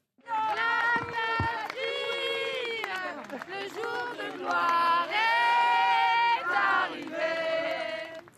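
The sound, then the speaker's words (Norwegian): A large crowd sings the French national anthem together in Paris in the days after the November 2015 terror attacks, a loud, dense mass of voices holding long sustained notes that swell and dip without a break. “De eh, sang nasjonalsangen i Paris i går”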